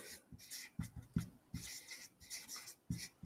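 Marker or chalk writing on a board during a lesson: many quick scratchy strokes in uneven bursts, with a few soft taps as the tip meets the surface, moderately loud against a quiet background.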